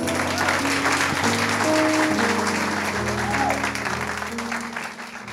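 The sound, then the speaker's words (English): An audience applauds as a resident yoga teacher is introduced to speak, with dense, steady clapping over sustained musical tones before the applause slowly thins out. “So please give it up for Miss Gabby Huerta.”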